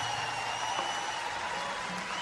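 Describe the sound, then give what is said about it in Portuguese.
Audience applause, a faint steady wash of clapping that holds evenly for the whole moment. “Maradona, uma salva de palmas, por favor.”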